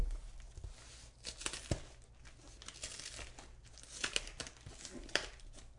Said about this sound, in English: I'm just taking my damn time here with this tape. Now the next side.